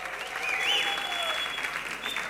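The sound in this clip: Audience applause at a music festival presentation, a brief, even burst of many people clapping, with a thin whistle-like tone running over it.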